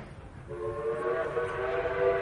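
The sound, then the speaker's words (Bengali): A train whistle sounds from a morning train at a railway station. A sustained, steady tonal blast begins about half a second in and holds over a low, rumbling background. “ভাগ্য সদয় থাকায় Waterloo station থেকে সকালের ট্রেনটা পেয়ে গেলাম।”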